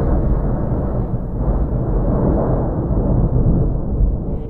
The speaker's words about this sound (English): And on the morning of the third day, thunder boomed